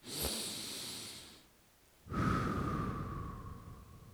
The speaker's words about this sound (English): We're going to start out by taking one deep breath in your nose, out your mouth.